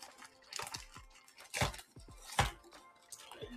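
Faint crinkling, tearing and crunching as a small canelé is unwrapped and eaten, with a few soft bursts spread unevenly and no voices.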